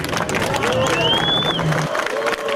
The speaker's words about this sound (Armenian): Ծափեր մեր ոստիկաններին։